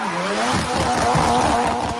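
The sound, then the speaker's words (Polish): Car tires squealing on a street, a continuous loud screech over engine roar that holds for about two seconds. “To aż piszczenie tych opon.”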